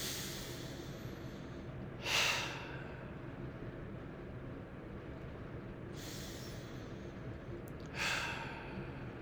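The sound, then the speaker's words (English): Deep breathing during a breathing exercise: a few airy exhales through the mouth, each spaced several seconds apart, rise out of a low steady hiss. “So let's start with three deep breaths. In through the nose, out through the mouth is usually very, very grounding and healing. So let's do that. Audible exhales are welcome.”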